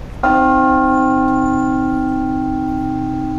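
A two-ton modern cast bell with finely tuned harmonics is struck once, then rings on in a loud, steady, layered hum that barely fades.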